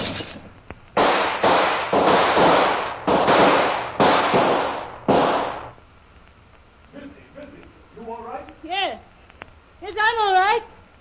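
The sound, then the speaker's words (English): Gunshots fired through a window crack out in a rapid run of about six harsh, loud blasts, each with a short ringing tail, and then excited voices shout and cry out. “Him shoot through window, then run off into bush, missy.”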